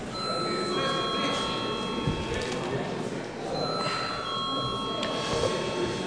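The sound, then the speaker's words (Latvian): An electric bell rings continuously in a parliamentary chamber to call members to a vote. The steady, bright ringing tone holds throughout over a dense wash of background noise. “Lūdzu zvanu.”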